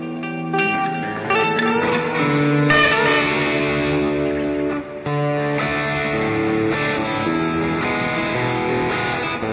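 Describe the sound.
Reverb-soaked, effects-processed sound, as from a voice run through a reverb unit, with dense sustained ringing tones and some distortion, loud and continuous for nearly the whole clip apart from one brief dip near the middle.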